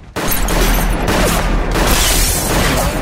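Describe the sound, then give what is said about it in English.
Gunshots are fired at police in a TV police drama. A sudden, dense, loud barrage of blasts starts abruptly and keeps going for about three seconds, with a few sharper bursts and no talk. “Shots fired at the police!”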